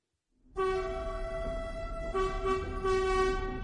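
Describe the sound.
A train horn heard from on board a train: a loud, sustained chord of harmonic tones that starts abruptly and holds to the end, with its tone shifting slightly partway through.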